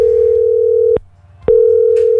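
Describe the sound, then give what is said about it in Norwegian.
A steady telephone dial tone hums loudly as a call is placed. It cuts out once for about half a second, then resumes at the same pitch. “Jeg skal ringe til Nikita nå”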